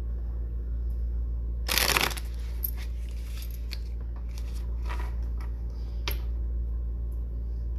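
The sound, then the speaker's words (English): Tarot cards shuffled for a reading: one brisk, crackling riffle burst near the start, then a few faint soft taps and slides of the cards. “let's do a card reading on David Copperfield.”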